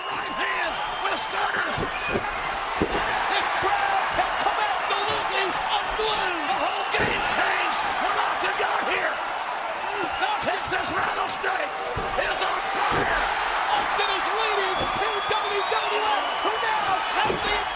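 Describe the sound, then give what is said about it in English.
Slams and crowd noise from an ECW wrestling match where the Dudley Boys interfere in Kane and Undertaker versus Diamond Dallas Page and Rhino: many heavy thuds over a constant roaring crowd, with a voice talking throughout. “ECW after the Dudley Boys interfered in a match between the Brothers of Destruction, which are Kane and Undertaker, versus Diamond Dallas Page and Rhino.”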